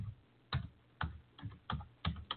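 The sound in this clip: A web address is typed on a computer keyboard as several faint, crisp keystroke clicks in an uneven rhythm, separated by short pauses.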